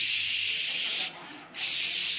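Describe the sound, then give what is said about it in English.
A voice imitates the hiss of a pressure cooker valve: a loud, sustained, airy hiss that drops away briefly in the middle, then resumes at full strength. “like somebody hit the pressure cooker valve, it's time to go.”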